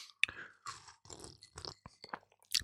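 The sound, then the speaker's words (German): Sipping of a Bitter Mai Tai cocktail, with wet, crunchy mouth and chewing-like noises coming in several short bursts and a sharp click near the start, all moderately quiet and without talk. “Ich sipp erstmal.”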